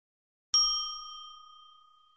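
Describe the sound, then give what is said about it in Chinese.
A single bright ding rings out as a signal cue in a children's English lesson. It strikes once with a clear, high metallic tone and then decays smoothly over about two seconds. “小朋友们听到“叮”的声音后，说出妈妈的两句话。”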